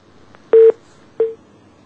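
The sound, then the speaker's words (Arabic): A telephone call disconnects with electronic tones: a soft click, then a loud steady beep, and after a pause a second, shorter beep at the same pitch. “قطع اتصال.”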